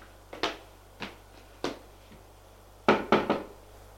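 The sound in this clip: Knuckles rap on a bedroom door: three evenly spaced knocks, a faint fourth, then a quicker cluster of three, each short and sharp against a quiet background.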